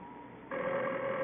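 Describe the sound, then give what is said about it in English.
A telephone rings with a steady, sustained tone that starts about midway and continues to the end, with no talking. “I know it's the phone.”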